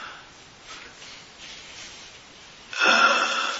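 One rough, wheezing cough bursts out after incense smoke is inhaled during a meditation session, following several seconds of faint breathy hiss, loud and noisy for about a second before easing off.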